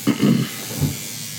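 A tattoo machine needle buzzes while working near the collarbone, giving a hissy electric drone with a few low throbbing pulses early on.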